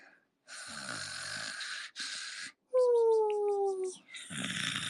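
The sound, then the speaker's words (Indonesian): A person imitates snoring with about four rasping, buzzing breaths separated by short gaps. The third is more voiced and tonal, sliding slightly downward in pitch. “I'm gonna snore. Aku sempat, tapi aku kalau ngorok kayak gini, kata mamaku ya.”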